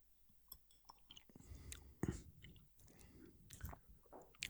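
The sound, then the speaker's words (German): Someone sipping a 47% gin: quiet, wet mouth sounds with many soft slurps, smacks and clicks in an uneven rhythm, with no talk. “Also wir werden jetzt mal trinken.”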